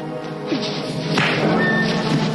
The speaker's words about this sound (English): That's a manly punch.